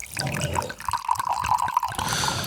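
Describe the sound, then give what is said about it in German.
A drink is poured from a bottle to top up a glass: a soft, continuous liquid gurgle with faint glugging pulses that stays at an even level throughout. “Nachgeschenkt.”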